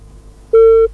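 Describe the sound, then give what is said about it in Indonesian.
A telephone busy tone follows a call that has just been cut off. A single steady mid-pitched beep starts about halfway through and lasts roughly a third of a second, after a faint low line hum. “Oke, teleponnya terputus nih pendengar.”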